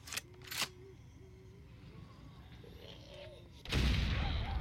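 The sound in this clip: Revolver and sawn-off shotgun fire in a zombie video game: two sharp shots crack near the start, a quiet stretch follows, then a heavier, louder blast lands and rumbles on to the end.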